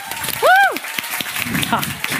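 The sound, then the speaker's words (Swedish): Audience applause greeting the hosts at the start of a live show, a dense patter of claps with a voice over it and a loud rising-then-falling whoop early on. “Det är nu ni ska applådera!”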